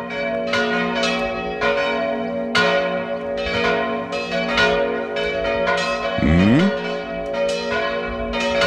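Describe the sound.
Church bells ringing in a steady peal, bright metallic strikes overlapping roughly once a second with long shimmering tails, no voices.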